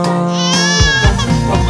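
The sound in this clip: A baby cries over a steady musical backing, with a wavering, high-pitched wail that carries on through the whole clip.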